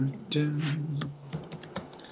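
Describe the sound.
A few quick clicks of typing on a computer keyboard while chatting online, tapping lightly under a person talking.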